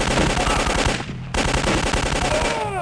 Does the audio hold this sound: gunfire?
yes